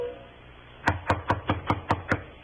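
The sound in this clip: Seven sharp, evenly spaced knocks on a door, firm and fairly quick, come after a short quiet pause.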